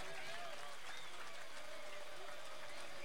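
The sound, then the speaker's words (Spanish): Audience applause at a rock tribute concert as the band members are introduced one by one. It is a steady, fairly faint clatter of clapping with thin sustained tones and voices blended in. “León Medina, gran aplauso para él. Ale Russo en batería, un aplauso.”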